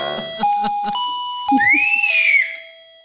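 An electronic doorbell chime sounds as sustained, pure electronic tones, a steady note followed by a brighter gliding tone that fades out, with some faint low bursts between them.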